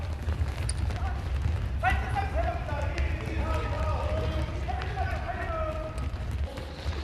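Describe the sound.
Footsteps of people setting off to run three laps, a quick patter of steps under speech, with voices talking throughout.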